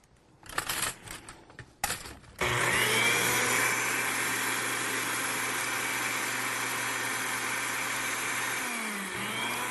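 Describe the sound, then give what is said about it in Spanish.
A blender blends honey and lemon. A few clattering knocks come first, then a loud, steady motor drone runs to the end with a brief dip near the close. “Dos cucharas de miel. Y dos de limón. Entonces vamos a licuarlo.”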